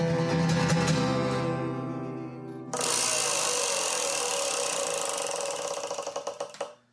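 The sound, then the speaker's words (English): A prize wheel spinning gives off a dense, rapid clatter of ticks that holds steady, then slows into distinct, more widely spaced clicks before stopping. “I am now going to spin the Wheel of Eight.”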